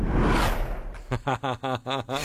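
Zip ties on a bicycle wheel: a whooshing rush gives way to a run of rhythmic, buzzy pulses at a quick even pace, like plastic flapping against spinning spokes.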